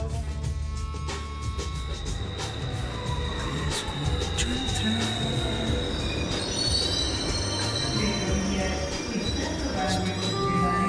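A subway train at Abasto station makes a loud, continuous rumble of wheels on rails that lasts the whole stretch, with high metallic squeals threading above it.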